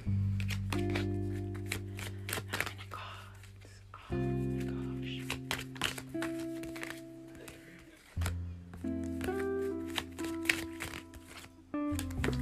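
Playing cards are shuffled in a quick, crisp riffling patter of many small clicks, with sustained steady tones underneath that change in a few blocks.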